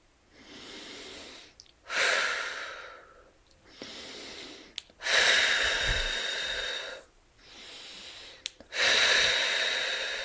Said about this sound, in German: Atme mal kurz dreimal tief ein und aus.